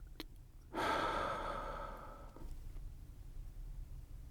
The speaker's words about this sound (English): Now take a few deep breaths. Inhale through your nose and exhale through your mouth, releasing the breath fully.